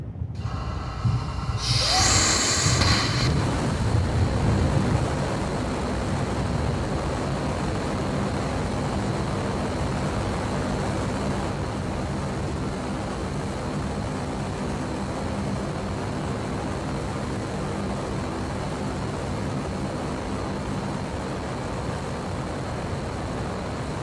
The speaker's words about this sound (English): So this is a Raptor firing.